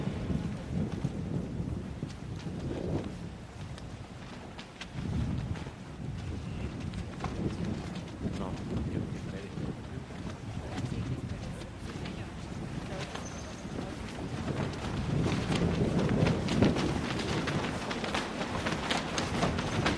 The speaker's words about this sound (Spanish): Estás escuchando es parte del sonido del viento que da en las banderas, las grandes banderas que están cruzando.